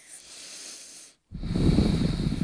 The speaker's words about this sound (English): for a couple moments, I'm just going to breathe